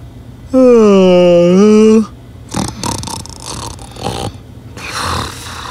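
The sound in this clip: A tired painter in a fairy tale drifts off to sleep with one loud, drawn-out voiced snore lasting about a second and a half, as a voice imitates snoring, followed by softer mumbling and rustling.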